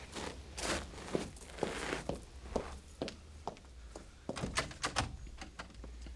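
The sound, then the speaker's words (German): A locked back door is tried, giving a series of faint thuds, knocks and clicks at an uneven rhythm, with no voices. “Die Hintertür ist auch verschlossen.”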